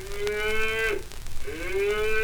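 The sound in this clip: Two long, deep moos from a cow in a barnyard, each a drawn-out, steady low tone. The second swells upward at its start, and no one talks over them.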